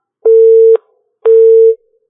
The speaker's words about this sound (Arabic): طيب واضح الاتصال انقطع.